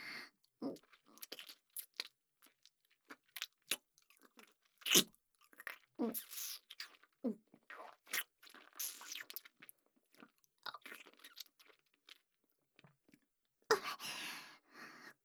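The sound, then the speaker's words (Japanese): Chewing of soft, salty, rich-tasting food: many wet, crunchy bites and mouth sounds in an irregular rhythm, with short pauses between bursts and a louder stretch near the end. “噛めば噛むほど味が染み出てくる。”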